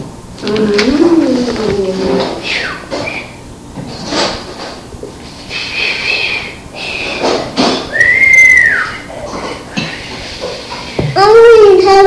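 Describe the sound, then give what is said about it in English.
A person whistling clear tones amid a busy family scene, with children's and adult voices talking throughout and a few brief whistled notes standing out above the chatter. “You're learning how to whistle? See? Want to hear me whistle, Daddy? Want to hear me whistle?”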